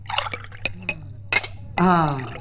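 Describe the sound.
Water is poured into a drinking glass for a visitor. A few light taps and clinks come first, then a steady, bright pour with a ringing, tonal quality that carries to the end.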